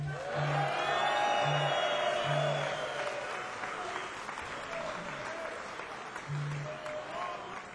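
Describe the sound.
Sustained audience applause greets a musician from Nashville, Tennessee, as he moves over to guitar to sing; dense, steady clapping fills the whole stretch at a fairly even loudness.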